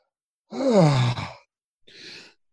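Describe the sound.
A voice imitates big yawns: one long, drawn-out groaning yawn that slides down in pitch, then after a short pause a softer, breathy exhale.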